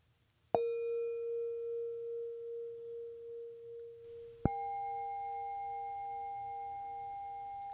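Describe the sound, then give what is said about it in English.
Singing bowls ring in pure sustained tones: one struck note hums with a slow wavering pulse as it fades, then a second, higher bowl is struck and rings on steadily, quiet and alone. “Let the tones of the bowls wash over you, resting your awareness on the sound.”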